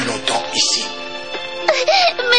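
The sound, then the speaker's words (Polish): A robot in Dragon Ball Z cries with a wavering, synthetic wail whose pitch bends up and down in several sobbing phrases. “Panie robocie, nie płacz, ruszaj w drogę.”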